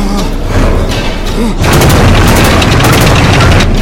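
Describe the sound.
Explosions and gunfire from a war film battle between German and Soviet soldiers in trenches. A dense, loud roar of blasts and bursts runs throughout and swells louder partway through.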